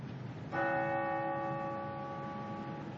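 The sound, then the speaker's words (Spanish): A single strike of the Big Ben clock bell at the British Parliament building in London rings out with one clear, sustained, richly overtoned tone that hangs on steadily after the hit. “Ese sonido que escuchamos es el sonido del famoso reloj Big Ben, ubicado en el edificio donde se encuentra el Parlamento Británico.”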